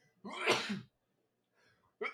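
One sneeze, a single sharp, breathy burst that rises and cuts off within about half a second. Faint, brief sounds follow after a pause, with no talk over the sneeze.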